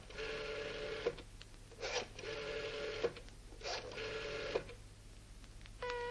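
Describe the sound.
A telephone ringing while a call is placed, heard as a few long, buzzy ring tones at steady pitch, separated by brief gaps, fairly faint and without talk over them.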